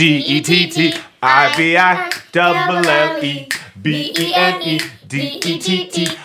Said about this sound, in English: Those are all snaps, not claps, and not high fives.